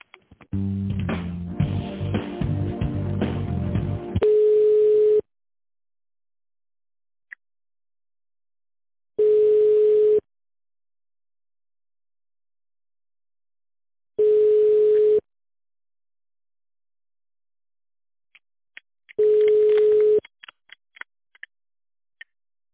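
Telephone ringback tone heard while a call is being transferred: four long, steady single-pitch beeps about five seconds apart with silence between. A few seconds of denser, busier sound come before the first beep.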